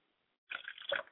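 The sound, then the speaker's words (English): Liquid is poured out as a libation during a ceremony of calling on ancestors. A brief, faint splashing trickle follows a moment of near silence. “As I pour libation to the north, I say Ashe.”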